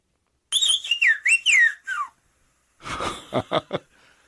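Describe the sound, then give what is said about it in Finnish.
Whistled language from a small Greek mountain village: a phrase of high, gliding whistled notes that bend up and down in pitch, then after a brief pause a breathier run of short, sharp whistles. “Kun tämä on siis yksi noin 70 vihellyskielestä.”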